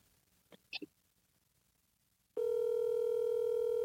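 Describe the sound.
Telephone dial tone heard while placing a call: a few faint clicks in near silence, then a loud steady tone starts suddenly and holds.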